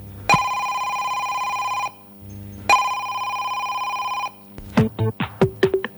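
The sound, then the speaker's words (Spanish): A telephone rings with two long electronic trills separated by a short pause, loud and steady. A quick run of short, chirping tonal blips follows. “coge la llamada. Alguien te quiere hablar.”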